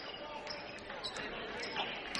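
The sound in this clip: A basketball is dribbled on the court during a men's university game, St. Mary's at Carleton, as time runs out. Several sharp bounces sound under continuous commentary and crowd noise.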